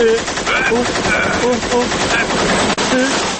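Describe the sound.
Machine-gun fire rattles in one loud, dense, continuous burst, with a repeating pulsing pattern roughly twice per second across the whole span.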